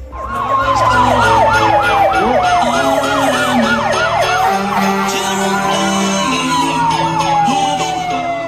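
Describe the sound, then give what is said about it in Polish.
American fire truck siren wailing loudly, with fast rising-and-falling yelp sweeps that give way to slower, longer sweeps, all over a steady low engine rumble. “Amerykańskim wozem strażackim do chorych dzieci przyjechał Święty Mikołaj wraz z elfami.”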